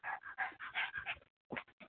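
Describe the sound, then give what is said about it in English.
Heavy panting from a dog: a run of rapid, breathy bursts, a brief pause, then a few more quick pants, fairly soft and steady. “And that heavy breathing is my dog. I apologize.”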